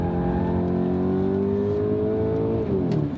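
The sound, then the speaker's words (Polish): A Skoda Octavia RS on Pilot Sport 4S tyres accelerates on a race track, its loud, steady engine drone climbing gradually in pitch before dropping abruptly near the end. “jak na Oktawie RS-a to naprawdę to fajnie przyspiesza.”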